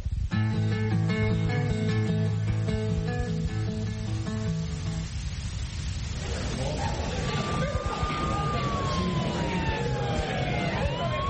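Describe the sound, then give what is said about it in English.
Emergency vehicle siren coming in, its wailing tones gliding downward over steady traffic-like noise, following a few seconds of sustained musical chords; moderately faint. “It sounds like another emergency coming in.”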